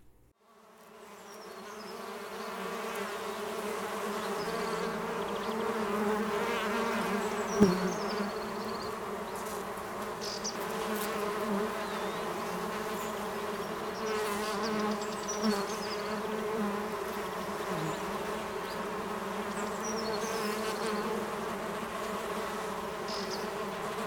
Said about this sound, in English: Here's to the beautiful, important honeybee from myself and the Beeline Travel Trailer.